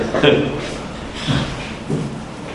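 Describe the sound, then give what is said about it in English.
A door being closed to keep the heat in, heard as a few soft clunks and thuds spread across a couple of seconds while a person keeps talking. “I'm just going to close this door. Try to keep the heat in here.”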